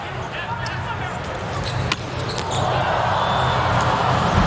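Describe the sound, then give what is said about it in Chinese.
A volleyball is bounced before Lewandowski's serve in a Poland versus USA match: a few dull thuds under constant crowd noise and commentary. “是，莱万斯基的发球，”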